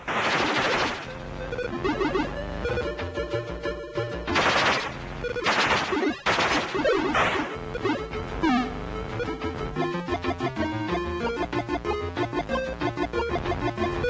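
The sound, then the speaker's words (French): Rapid gunfire from a spaceship's gun in a video game, loud rattling bursts of sharp bright shots mixed with zinging electronic tones, nearly continuous with only brief gaps. “Pour cela, tu disposes d'un vaisseau équipé d'un fusil.”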